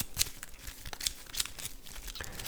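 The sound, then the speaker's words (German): A deck of playing cards being shuffled during a tabletop card game: papery riffling and crisp flicking snaps, with a few sharper bursts standing out over a soft, continuous rustle. “Durchsuchen wir die obersten drei Karten unseres Decks nach einem Zauber. Haben keinen gefunden. Und mischen unser Deck.”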